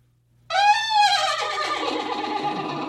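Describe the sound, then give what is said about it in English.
A horse neighs loudly after a brief silence, a high wavering whinny that breaks into a rough, breathy sustained call and holds to the end. “what do you think of this when the horse neighs?”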